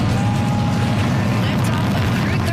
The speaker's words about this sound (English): Joshua Kutrick, the Canadian astronaut on board the Falcon 9 rocket that launched this morning from Cape Canaveral